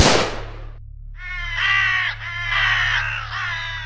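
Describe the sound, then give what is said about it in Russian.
A flock of crows startled from their nests by a gunshot caws loudly as they take flight, a sharp noise burst fading out first, then harsh, overlapping caws running continuously to the end. “Стаи ворон, сорвавшись со своих гнезд, взлетели в воздух от громкого хлопка.”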